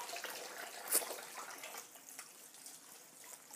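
Water running from a tap while noodles are rinsed, a faint, steady hiss with a few soft splashy flickers throughout.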